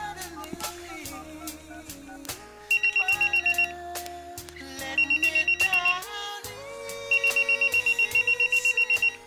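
A telephone ringing in three bursts of rapid, high, trilling rings over steady background music, with no talk.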